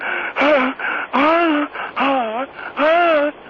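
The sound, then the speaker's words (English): A caller on the phone breathes heavily and gasps in a rhythmic series of loud, voiced, moaning breaths with short pauses between them, heard through a narrow telephone line. “What? I'm trying to get my breath.”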